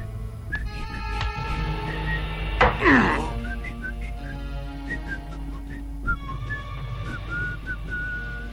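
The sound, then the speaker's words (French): A man whistles a familiar game-show theme tune, its bright, steady melody of held and sliding notes carrying over a soft tonal backing, with a brief whooshing sweep partway through. “ça va me permettre de siffler la toune de Jeopardy pour occuper le temps”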